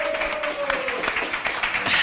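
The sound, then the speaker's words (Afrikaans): Applause at a boxing weigh-in, a short stretch of steady, crackling hand clapping at moderate loudness. “Gee hulle 'n hande klap.”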